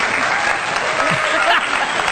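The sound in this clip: A canned applause sound effect played on a sports talk show, a steady, full burst of clapping at even loudness from start to end, with a voice briefly heard over it.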